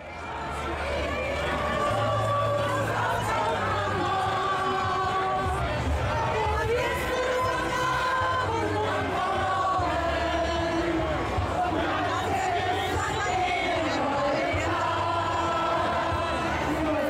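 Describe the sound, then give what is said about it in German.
A protest march crowd in Cologne sings the church hymn Von guten Mächten, with words by Dietrich Bonhoeffer. Many voices sing together in a slow, wavering melody over loud background noise and a low, pulsing drone. “Und so klingt in Köln das tatsächlich so. Es ist laut im Hintergrund, aber wahrscheinlich werden Sie es erkennen. Es ist ein Kirchenlied von guten Mächten.”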